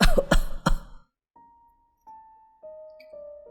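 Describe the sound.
A man coughing after choking on his own saliva, with three quick, harsh coughs bunched together at the start and then quiet.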